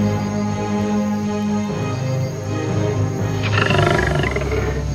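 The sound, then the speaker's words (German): A lion roars, a deep, loud, sustained growling roar that runs unbroken through the whole clip and swells slightly toward the end. “Plötzlich ein Gebrüll. Ein Löwe kam majestätisch aus dem Wald spaziert.”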